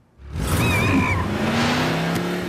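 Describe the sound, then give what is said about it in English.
A dune buggy's engine roars in abruptly and holds a loud, rough, steady drone for about two seconds with little change in pitch. “official Word Girl Dune Buggy! I don't think I'm old enough to drive that.”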